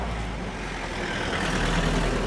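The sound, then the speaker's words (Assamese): Several vehicles arriving produce a dense, continuous rumble of engines with a heavy low-frequency drone and broad road noise, steady and fairly loud throughout and swelling slightly toward the end, with no voices. “ৰ'বাচোন ৰ'বা, কেইখনমান গাড়ী আহিছে দেখোন।”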